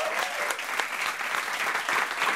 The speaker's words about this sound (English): you got to give this man a round of applause right here.